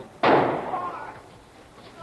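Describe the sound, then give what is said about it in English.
A single gunshot as Jack Ruby shoots Lee Oswald in the basement of Dallas police headquarters during live television coverage: one sudden, loud crack that decays slowly into a noisy background. “He's been shot. He's been shot. Lee Oswald has been shot. There's the man with a gun.”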